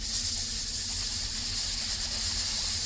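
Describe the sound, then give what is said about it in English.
A low, static-like hiss permeates a complex, a constant, even wash of noise with a faint low hum beneath it and no voices or other events. “You can't place what it is. It's like a static or a hiss or something.”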